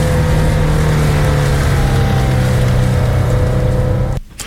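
Car engine drone as the vehicle leaves town and speeds up: a loud, steady, continuous hum with a low tone throughout, cutting off abruptly just before the end.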